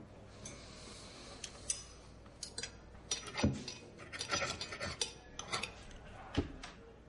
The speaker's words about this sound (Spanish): coge los cubiertos y se dispone a cortar la carne